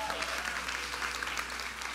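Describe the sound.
An audience at a women's gathering applauds as a singer and author comes onto the stage, steady dense clapping throughout with a voice speaking over it.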